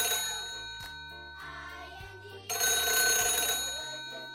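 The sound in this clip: Telephone ringing with a sustained, bright, bell-like trill that brightens and swells louder partway through, with low steady tones beneath and no talking.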